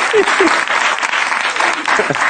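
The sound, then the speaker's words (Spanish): Audience applause, a dense and steady patter of many hands clapping throughout, with some voices mixed in. “Vale, pues un aplauso para Jorge Ponce”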